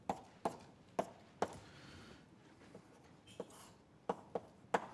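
Crisp taps and scratches of writing on a board as a simple diagram is drawn during a lecture, with several sharp knocks spread irregularly over a quiet background and no talk.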